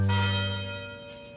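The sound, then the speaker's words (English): University tower chimes ringing: a struck bell tone with rich, bright overtones that sustains and slowly fades, heard alone without talk. “The University Tower chimes ring in another session of Ask the Professor”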